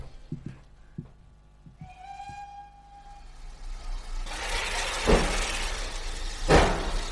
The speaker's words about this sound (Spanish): ya se ha puesto en marcha el tren porque casi ni nos ha esperado. Hemos tenido que coger en marcha.